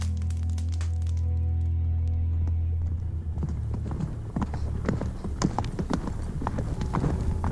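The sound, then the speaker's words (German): Hoofbeats of a sweat-soaked horse galloping into a camp: many rapid, irregular clip-clop strikes begin after a low, steady hum and continue loud to the end. “Es ist bereits Mittag, als ein Bote auf schweißnassem Pferd in das Lager galoppiert.”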